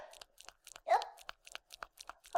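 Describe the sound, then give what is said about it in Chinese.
Crunchy spicy gluten strip snack being eaten, with many quick, faint crunching and chewing bites in an uneven rhythm and one louder, longer crunch near the middle. “我在吃辣条”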